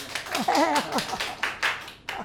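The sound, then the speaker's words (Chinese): A small group claps, a few sharp, uneven hand claps scattered through the stretch, with a voice briefly speaking among them. “鼓掌，鼓掌。”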